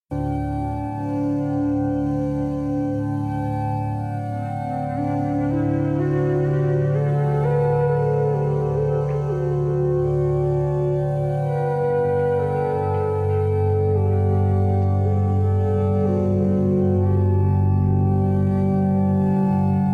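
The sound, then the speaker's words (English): The 'Be accepting' sound from the InnerMap app, a calm ambient drone of layered, sustained harmonic tones that shift slowly while staying steady in loudness throughout. “So that was some sounds from the InnerMap app, and specifically that sound was be accepting.”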